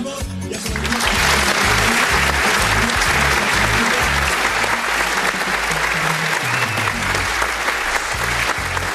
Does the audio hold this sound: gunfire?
no